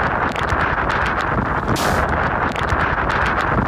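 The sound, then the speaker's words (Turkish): Strong typhoon wind sweeps across eastern China amid floods and overturned trucks: a loud, continuous rushing roar buffeting the microphone, with deep rumbling and gusty bursts throughout. “Tayfun bölgeye sel getirdi. Kamyon şiddetli rüzgarın etkisiyle devrildi.”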